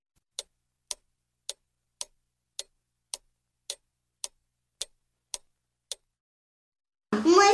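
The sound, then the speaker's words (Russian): A large clock ticks eleven times in an even, sharp rhythm against silence, then its quiet music suddenly begins. “И вдруг она услышала тихую музыку.”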